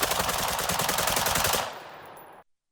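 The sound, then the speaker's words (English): Rapid gunfire from a semi-automatic AR-15 rifle fitted with a bump stock, many loud shots in a fast, even rhythm for about a second and a half, then cutting off into a brief fading tail. “That's a regular semi-automatic AR-15. It's not the police chief firing, but you get the idea. And here's the same rifle with a bump stock.”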